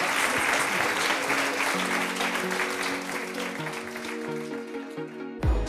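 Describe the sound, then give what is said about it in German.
Applause thanks two women guests at the close of a talk. Loud, dense clapping thins a little as voices talk over it, and it ends with a low thump. “Und der letzte große Applaus, der gilt unseren beiden Damen hier.”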